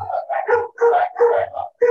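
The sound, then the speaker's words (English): Dogs barking and yipping in a quick, uneven run of short, bright, tonal calls, some bursts clustered closely together and separated by brief gaps. “Are those the guard dogs in the jail that you're living in?”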